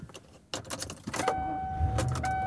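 Car interior sounds on a drive home: a few sharp clicks and rattles, then a steady high electronic tone over a continuous low engine rumble.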